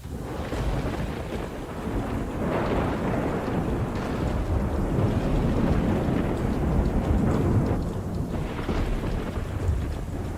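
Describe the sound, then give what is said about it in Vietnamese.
Thunder from a lightning strike rumbles as a sound effect, a broad sustained roll with rain-like hiss and wind noise throughout, steady and moderately loud with no talk. “Từ trong đám mây đen, một tia sét đỏ rực phóng xuống giữa bầy quỷ, nổ đánh đùng một cái.”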